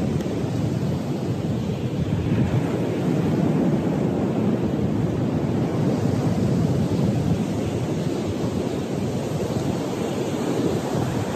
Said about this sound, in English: Feel the wind as it passes across my face. It's one of my favorite things to think about, and now that I'm here and I can feel this wind, I can verify. Definitely one of my favorite things about the beach.